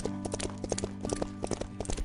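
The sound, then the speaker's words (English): A horse's hooves plod down a road in a steady run of clip-clop strikes, many even, moderate beats at an unhurried walking pace, with no voices. “The horse just started plodding down the road.”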